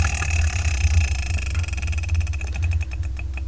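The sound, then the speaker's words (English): A prize wheel, the Wheel of Manga, is spun: rapid ratcheting clicks from its pointer gradually slow and spread apart as it winds down, over a steady low hum. “I'm going to spin the Wheel of Manga, whatever number it lands on. That's what we're reviewing for the next episode of the Spirekin Manga Review. So let's hear what's going to be. Nice spin.”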